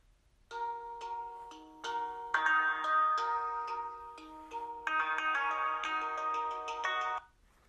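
A telephone rings with a melodic electronic ringtone, playing a sequence of bright notes in several repeated phrases for about seven seconds.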